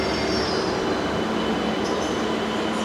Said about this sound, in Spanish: Así que creo que es hora de irme, pero una gran experiencia poder montar el tren eléctrico.